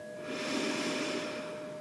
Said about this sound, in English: Go ahead and take a nice deep breath in, all the way down to the belly.